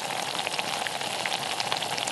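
Liquid simmering and boiling in a pot gives a steady, dense bubbling hiss with fine crackling pops that stays even in loudness throughout, with no talking.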